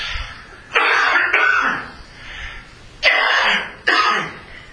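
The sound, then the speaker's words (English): Harsh coughing and throat clearing from a person with an allergy, a few loud rasping bursts separated by short pauses. “I cannot get rid of this allergy and cough.”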